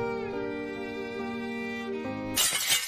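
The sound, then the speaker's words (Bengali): Glass shatters upstairs, one bright, crashing burst near the end that breaks in over a steady, sustained musical drone. “তার ভাবনায় চিড় ধরে দোতলার কাঁচ ভাঙার আওয়াজে”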